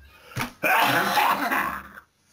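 A man coughs: one short rough burst, then a longer, harsh, rasping cough that fades into quiet.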